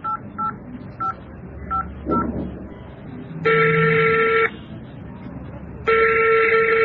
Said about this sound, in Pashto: سمه ده قومندان صاحب دا زه اوس ورته زنګ وهم.